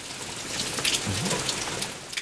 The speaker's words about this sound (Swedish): Nu regnar det!